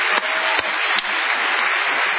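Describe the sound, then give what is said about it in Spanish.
An audience gives a sustained ovation, a thick, continuous roar of applause that stays steady throughout, with a few sharper claps standing out. “Vamos a prolongar el aplauso de saludo con una ovación a Patricio Bartón.”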